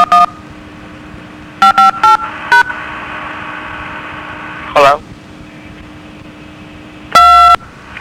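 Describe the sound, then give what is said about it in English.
Telephone keypad tones: a short dual-tone beep, then a quick run of four more, with a later, louder, longer beep, all over a steady low hum. “please press *1 and then your telephone number”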